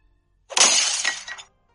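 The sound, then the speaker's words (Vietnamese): A teapot thrown and smashed to pieces gives one loud, bright crashing shatter, with a scattering rattle of fragments that fades out after about a second. “Ấm trà bị Lâm Tam ném vỡ tan.”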